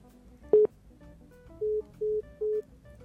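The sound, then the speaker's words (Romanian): Telephone keypad tones while redialing to restore a dropped call: one short beep, then three evenly spaced, longer steady tones of the same pitch, with no talk. “Mai sunăm o dată, încercăm să restabilim da. legătura.”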